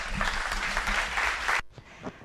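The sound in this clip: An audience applauds to welcome a speaker at an event: dense, steady clapping from many hands that stops abruptly, followed by a brief voice.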